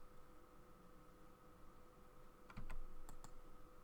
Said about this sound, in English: I'm just typing in every letter until it tells me I did the crossword correctly